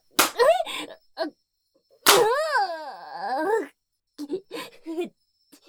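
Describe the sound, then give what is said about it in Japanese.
Two sharp smacks of a spanking on the buttocks, each followed by a pained vocal yelp; the second yelp is a long, wavering cry, and a few short spoken bursts follow. “分かった、悪かった、謝るから、ケツ叩くのやめろっての。”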